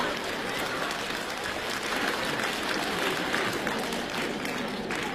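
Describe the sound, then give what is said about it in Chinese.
Audience applause at a live stage comedy show, a steady even wash of many hands clapping that holds at a moderate, rather faint level for the whole clip without clear breaks. “各位还鼓掌呢”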